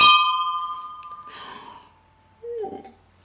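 Glasses clink for a toast with sparkling wine: a bright, ringing tone that fades slowly over a couple of seconds. A breathy gasp and a short vocal sound follow.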